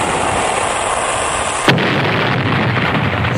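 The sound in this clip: A weapon fires at a ship and explodes: a steady loud hissing rush breaks into one abrupt burst, then gives way to a heavy, low rumbling roar that carries on to the end.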